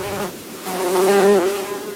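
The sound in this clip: Bee buzzing sound effect: a steady, continuous drone with a strong, rich hum that swells louder through the middle and then eases back, heard alone with no voices.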